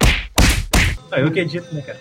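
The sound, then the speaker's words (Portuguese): Three heavy punch sound effects land in quick succession, each a loud, sharp thwack with a whooshing body, followed by a quieter tonal sound. “Dá para botar o soco agora?”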